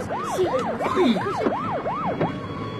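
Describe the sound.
Police car siren wailing in quick, regular rise-and-fall sweeps, several cycles in a row, loud and piercing, settling onto a held steady tone at the end.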